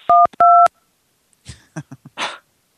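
Touch-tone button presses on a telephone keypad during an automated phone menu: two clear electronic beeps, the second longer than the first, followed by a few brief, fainter sounds.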